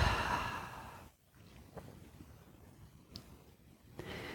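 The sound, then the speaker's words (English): A deep breath during a guided relaxation exercise, heard as a soft, airy rush of breathing in the first second, followed by near quiet with only faint breath noise. “So let's breathe into the body right here. Nice deep breath into the body.”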